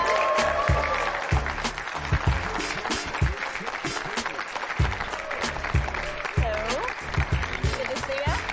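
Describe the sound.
High school students applaud to welcome a defensive lineman onstage, a steady patter of clapping with voices speaking over it.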